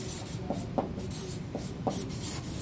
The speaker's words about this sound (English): Just call them out and we'll write them down.